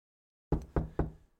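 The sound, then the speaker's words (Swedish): Three sharp knocks on a bedroom door, evenly spaced, each decaying quickly, with no voices around them. “Natten den 24 september hörde jag en knackning på min sängkammardörr.”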